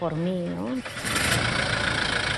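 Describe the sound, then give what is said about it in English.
A 4x4 truck engine, the one Bishop Prevost bought for reaching his Chiclayo diocese, rumbles steadily after a brief voice at the start. “To be even closer to his people, Bishop Prevost purchased this 4x4 vehicle early in his time in Chiclayo. Bishop Prevost had used the truck to reach people in the far corners of his diocese.”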